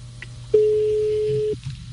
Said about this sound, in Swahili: Okay, kwa hivyo tunangojea simu. Naona imeingia sasa.